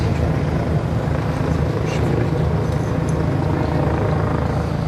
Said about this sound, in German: Über dem Berliner Tiergarten, dem großen Park im Herzen der Hauptstadt, kreist am frühen Sonntagnachmittag noch immer der Polizeihubschrauber.